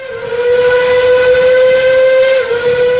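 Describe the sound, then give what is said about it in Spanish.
A steam locomotive built in Liverpool in 1929 hauls wagons built in Tolosa, sounding a loud, steady whistle that holds one sustained tone for about three seconds, wavering briefly near the end. “una misteriosa formación parte hacia la desconocida estación de Anyori. Una locomotora Made in Liverpool del año 1929 arrastra los vagones construidos en Tolosa.”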